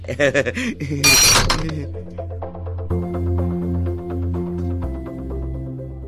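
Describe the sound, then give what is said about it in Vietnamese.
Glasses clink together in a toast among people drinking, a bright chiming burst that follows a brief voice and gives way to steady music. “Nào, chúng ta cùng cạn ly nào.”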